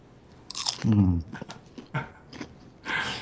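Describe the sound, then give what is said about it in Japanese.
Crunchy salted butter popcorn being chewed, with a few crisp, irregular crunches, the loudest early on, and a brief voice sounding among them. “いい音しますね。CM みたいな音がしてますよ。 あ、本当に。 ポップコーンの。”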